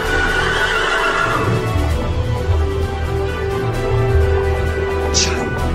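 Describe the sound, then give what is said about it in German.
A startled horse shies and whinnies, its sharp, high neigh cutting through near the end, with hooves clopping and shuffling beneath a steady low rumble throughout. “Das Pferd scheut.”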